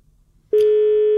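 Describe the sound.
A telephone line tone sounds on a call to a listener in Moscow: one steady, mid-pitched electronic tone begins abruptly partway through and holds at constant loudness to the end, after a quiet stretch with faint low noise.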